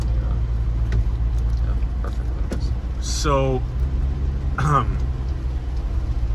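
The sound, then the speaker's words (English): A car drives on a smooth road, giving a steady low rumble inside the vehicle, with a couple of brief voice-like sounds above it. “So, right now we're driving on this quite smooth road”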